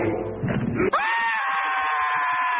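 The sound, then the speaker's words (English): A small scream sound effect: a brief noisy, rough burst gives way to a sustained, high-pitched wavering cry that sweeps up slightly and is held loud until the end. “That was the sound of a heart attack. A small scream. Scream.”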